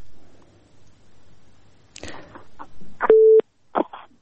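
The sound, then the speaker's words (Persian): A phone line tone after a caller was cut off: a brief, steady mid-pitched beep stands out amid a few short rustling and clicking bursts. Quieter low murmur comes before it. “بله تماسی شنونده ما قطع شد و میریم به تماس دیگه شنونده ما”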